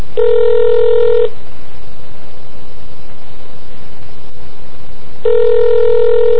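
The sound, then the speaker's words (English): Telephone touch tones as a number is dialed: two long, loud, buzzy tones, each about a second, separated by roughly four seconds of hiss. “so I'm going to go ahead and dial that one up.”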